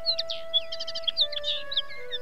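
A sparrow chirping in a children's story, many short, high, bright tweets and quick trills scattered over a steady sustained tone, with no talking.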